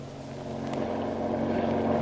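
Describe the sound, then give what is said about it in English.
A speedy patrol boat's engine gives off a continuous low droning hum with a faint, rough, wind-like hiss, its level creeping slightly louder over two seconds. “The authorities put at his disposal a speedy patrol boat, and the hunt for the submarine is on.”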